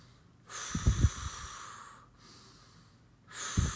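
Deep breathing during a meditation exercise: two long, audible breaths through the nose, each starting with a few sharp snort-like pulses, separated by a quiet pause.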